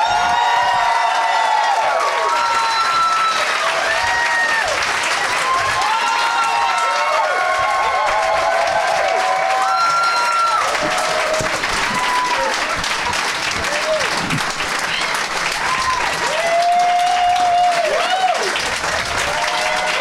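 A studio audience applauds and cheers as three guests are welcomed, with sustained clapping, scattered whoops and shouts running unbroken for about twenty seconds.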